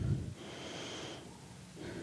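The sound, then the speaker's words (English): One deep breath drawn in, a soft, airy rush lasting about a second, faint and with no talking over it. “This is a hard one, so let's take a deep breath.”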